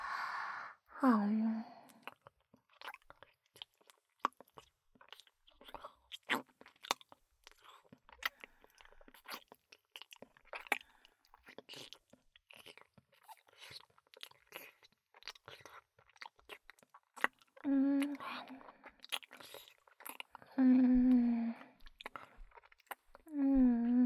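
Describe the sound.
Someone eating and chewing food, with many small wet clicks and crunches in an irregular rhythm, framed by sighs and voiced sounds at the start and end.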